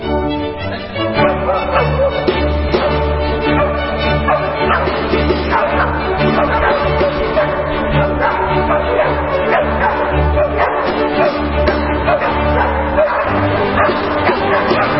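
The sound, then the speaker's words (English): Three dogs bark, yip and whimper repeatedly over a chamber orchestra playing continuously, their loud calls mixing with the sustained instrumental tones throughout. “What you hear there is the Danish Chamber Orchestra, accompanied by three dogs for their recent performance of the Hunting Symphony by Wolfgang Amadeus Mozart's father, Leopold.”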